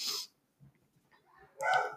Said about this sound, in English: I don't know if you can hear my dog barking right now.